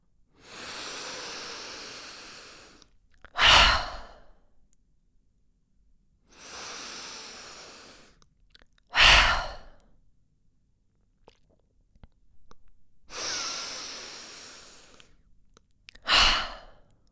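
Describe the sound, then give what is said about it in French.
Three deep breaths as a relaxation exercise, shoulders lifting on each inhale: every cycle is a long, soft, airy intake followed by a short, forceful exhale, evenly spaced with quiet pauses between them. “Prends de nouveau trois grandes inspirations. Monte bien tes épaules au moment de l'inspiration et relâche tout au moment de l'expiration.”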